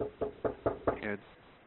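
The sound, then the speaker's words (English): Five quick, evenly spaced knocks land on a door, followed by a brief voice. “they keep knocking on my door.”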